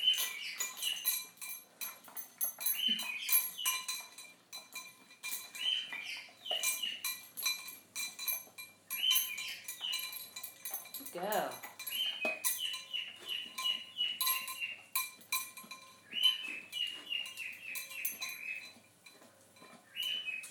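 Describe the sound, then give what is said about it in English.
A male cockatiel singing: repeated short, high whistled chirps in quick phrases, fairly faint, with one lower note sliding downward partway through. “that very pleasant noise you can hear is male cockatiel singing. He's trying to impress his missus.”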